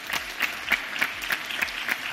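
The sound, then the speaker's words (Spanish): An audience applauds a guest at the Bioforo healthcare conference. The clapping is steady and moderate, pulsing in a regular rhythm throughout. “Bienvenido a lo que viene y también un aplauso para él, por favor.”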